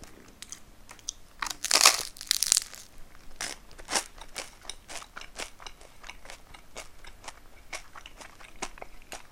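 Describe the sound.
Crunchy chewing of toasted bread, with loud, crisp bites bunched near the start, then many sharp crunches repeating in an uneven chewing rhythm at a lower level, with no talk.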